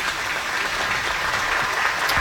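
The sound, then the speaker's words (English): A crowd at a game applauds an injured player with steady, dense clapping that holds at an even level throughout, with no voices standing out. “And the crowd will give an applause here for the injured player.”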